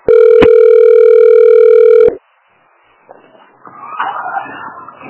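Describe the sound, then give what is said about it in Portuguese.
A telephone ringback tone sounds while a call to a health clinic waits to be answered: one loud, steady tone of about two seconds, followed by faint background sounds. “Você ligou para Unidade de Saúde Marco Antônio. Aguarde para ser atendido.”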